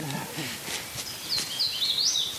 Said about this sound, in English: A thrush and cardinal sing in the oak and hickories.